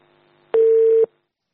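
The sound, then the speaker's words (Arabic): A single steady telephone tone signals an incoming call, an even, mid-pitched beep lasting about half a second with nothing else around it. “معي اتصال.”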